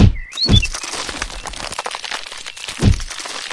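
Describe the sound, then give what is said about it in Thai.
Three heavy, dull thuds of a hungry rhino ramming its horn into a tree in a forest, loud and low, spaced apart, with a brief bird chirp near the start. “แรดผู้ที่กำลังหิวจึงเอาหนอของมันกระแทกเข้าไปที่ต้นไม้ต้นหนึ่ง”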